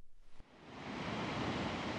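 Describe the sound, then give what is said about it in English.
Ocean waves rolling onto El Paredón's black sand beaches, a broad rushing wash that swells in after a softer start and then holds as a fairly faint, steady surge. “The black sand beaches of El Paredón stretch for miles, empty and stark. The waves roll in, lashing the coastline, their white peaks frothing in endless succession.”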